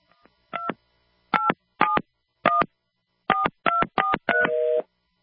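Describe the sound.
Telephone keypad dialing tones on a call placed without the leading 1: eight crisp two-tone beeps at uneven intervals, followed by a longer, steady tone as the call fails.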